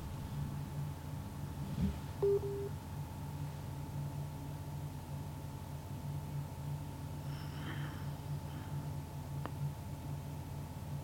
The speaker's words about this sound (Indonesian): beliau sudah menghubungi kami tapi belum tersambung ya, masih menghubungkan ulang. Terputus lagi.